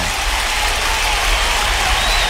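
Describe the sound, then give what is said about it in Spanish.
An audience applauds after greetings to Curepto and Pancagüe are read out. The clapping is loud, dense and steady, with low thumps underneath. “Un aplauso.”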